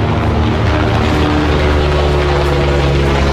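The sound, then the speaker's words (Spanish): A police helicopter from the carabineros prefecture circles overhead hunting a gunman, its engine and rotor giving a steady, continuous low drone with faint tonal hum and no talk. “helicóptero de la prefectura de la policial de carabineros rastreando desde el aire a este sujeto que actuó como pistolero.”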